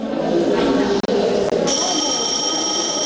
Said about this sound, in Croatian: Zvono u pojedinim školama u Srbiji nije značilo i početak prvog časa.